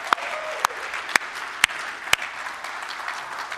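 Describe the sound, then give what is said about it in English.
Hand claps at a church service welcoming a visiting missionary speaker: five sharp, evenly spaced claps about half a second apart over a faint wash of crowd noise. “Would you guys put your hands together and welcome him?”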